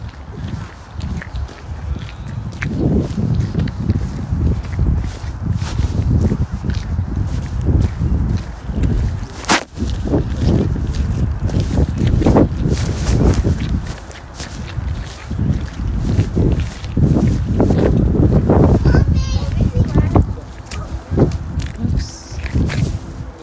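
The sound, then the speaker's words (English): Footsteps walk steadily outdoors along a path through an illuminated light display, a continuous run of scuffing steps with gusty wind rumbling against the microphone. “It's quite fun walking around not knowing where you're being led, isn't it?”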